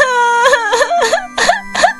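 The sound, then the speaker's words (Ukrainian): Loud wailing crying: a voice breaks into drawn-out, wavering sobs that rise and fall, repeated several times over a steady low tone. “Будь ласка, не починай знову плакати”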